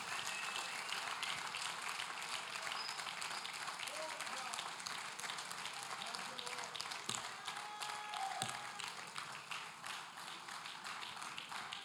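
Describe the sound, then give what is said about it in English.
A church audience applauding as new converts return to their seats, a faint, continuous wash of clapping that stays steady throughout, with voices mixed into it. “Give your new brothers and sisters a big hand clap as they go back to their seat.”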